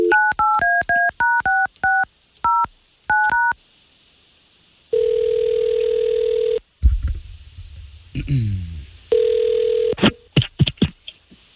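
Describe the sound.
Telephone keypad tones beep out a call to a radio listener in a rapid string of short dual-pitched pulses. A long steady ringing tone follows, then some clatter, a second ring tone and a few sharp clicks.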